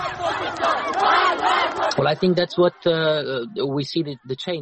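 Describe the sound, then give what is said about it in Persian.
Crowd of women in burqas chanting at a march in Kunduz in support of the Taliban, massed voices shouting together, then sharp bursts of a single loud voice calling out. “در شهر قندوز گروهی از زنان برخپوش به نشانی حمایت از طالبان راهپیمایی کردند.”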